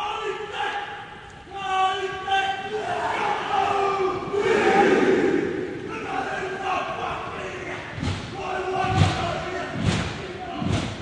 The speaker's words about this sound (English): Stephen Adams and Brooke Lopez were welcomed into the Sports Centre at Kilburnie to a haka from young fans.